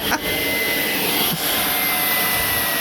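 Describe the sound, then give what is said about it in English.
A turbo-powered chainsaw idles with a loud, steady roar and a high, thin whine, holding constant apart from a brief dip in level partway through. “Chainsaw with the turbo.”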